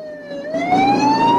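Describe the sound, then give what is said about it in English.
A police car siren wails during a car chase. The loud tone dips slightly, then climbs steadily in pitch over a rumble of engine noise. “A pursuing cop car spins to a halt, then sets off again.”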